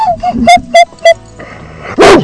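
A dog on a ranch barks in a quick series of sharp, loud barks with a few softer yips between, ending in a final heavier bark.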